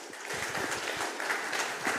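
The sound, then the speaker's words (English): A church audience applauds to welcome an elder onto the stage during a service, with soft, steady clapping that stays even and fairly faint throughout. “So if Jose Rubio could come out, if you could put your hands together and welcome our elder, Jose.”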